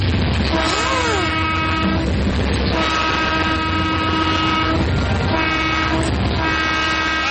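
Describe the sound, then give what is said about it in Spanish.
An elevated train rumbles continuously, with long, steady horn-like tones sounding over the low, broad roar of the cars. “Este tren elevado que tenemos para ustedes.”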